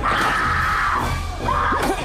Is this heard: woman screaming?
yes

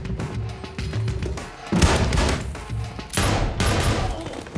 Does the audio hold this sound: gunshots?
yes

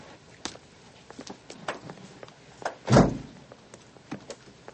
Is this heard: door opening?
yes

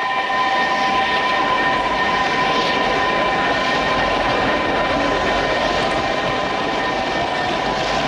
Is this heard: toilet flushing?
no

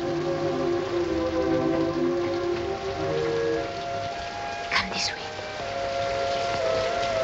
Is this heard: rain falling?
yes

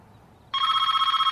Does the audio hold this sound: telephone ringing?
yes

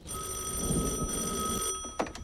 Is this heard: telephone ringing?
yes

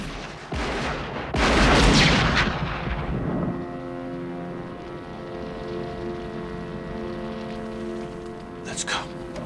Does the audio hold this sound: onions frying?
no

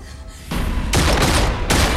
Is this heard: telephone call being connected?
no

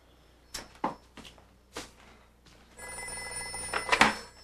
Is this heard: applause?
no

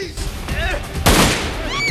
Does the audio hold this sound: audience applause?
no

